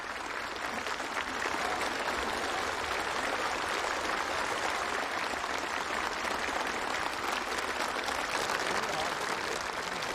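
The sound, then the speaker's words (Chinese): Warm applause from a large crowd fills the Golden Hall of the Great Hall of the People in Beijing: a dense, even roar of clapping that holds steady without a break. “人民大会堂金色大厅，全场响起热烈掌声”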